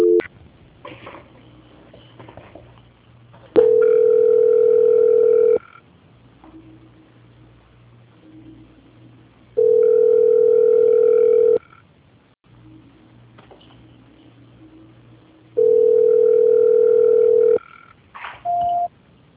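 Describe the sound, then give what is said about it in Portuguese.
Telephone call transfer tones on a muted line: three long, steady mid-pitched beeps of about two seconds each, evenly spaced, with a brief final blip. A quiet low hum fills the gaps between them. “A ligação ficará muda por algum instante. Tá. Transferência.”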